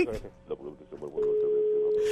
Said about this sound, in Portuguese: caiu a ligação